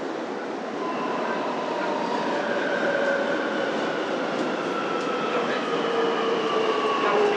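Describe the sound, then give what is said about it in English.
A subway train arrives at Liudaokou station in Beijing, with a steady rushing rumble and thin whining tones that drift gently lower in pitch, without any voices. “This train is bound for Fengbo Station. The next station is Liu Dao Kou. Please get ready for your arrival.”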